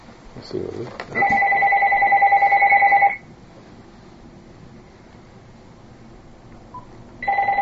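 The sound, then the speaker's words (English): A telephone rings with a steady electronic tone, one ring lasting about two seconds, then a pause, then a second ring that is cut off at the end. “there's another phone too, someone else connected.”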